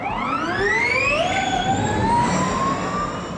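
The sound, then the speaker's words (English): A Formula E electric race car gives off a high electric whine whose layered harmonic tones climb steadily in pitch for over three seconds as it accelerates. It is loud, with no talk. “That was the sound of a Formula E car”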